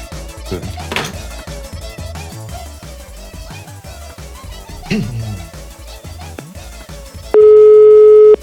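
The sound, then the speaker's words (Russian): Telephone call tone while dialing, a single steady electronic tone lasting about a second that follows a stretch of music. “Потому что я ей уже звоню.”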